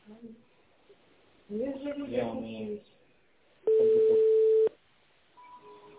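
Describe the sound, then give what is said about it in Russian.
A telephone ringback tone plays while a call is being placed: one steady, mid-pitched tone lasting about a second. Someone talks just before it. “А у него подготовка к звонку и идет вызов.”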